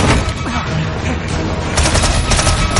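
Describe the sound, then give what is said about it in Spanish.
Loud automatic gunfire from a Korean War film scene, with an infiltrator inside a bar shooting in all directions: a dense, continuous barrage of shots with no pause. “Un infiltrado dispara en todas las direcciones.”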